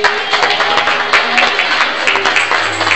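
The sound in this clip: A church audience claps hands in praise, a loud, brisk, rhythmic run of many palms striking together.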